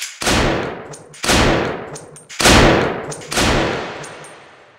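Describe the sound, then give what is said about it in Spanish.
Gunshots in a neighborhood: four loud, booming shots at roughly one-second intervals, each a sharp crack followed by a long decaying tail, the last one fading out slowly. “Y la gente del barrio, acostumbrada al ruido de los disparos”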